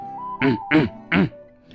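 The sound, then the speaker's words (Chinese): Throat clearing voiced by a storyteller for a monkey character, three short, throaty "ahem" bursts with brief gaps, over a soft sustained tone. “他清了清嗓子”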